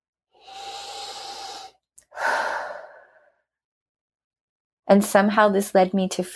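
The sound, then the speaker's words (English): A big, deep breath taken during a finger-tapping relaxation exercise: two long, breathy rushes of air, each lasting over a second with a short gap between them, followed by a voice starting to speak. “Big deep breath.”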